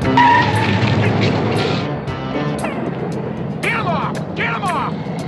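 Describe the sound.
A pickup truck's engine roars as it accelerates hard, its tires skidding and squealing in a few sharp, chirping bursts over a loud, steady rumble.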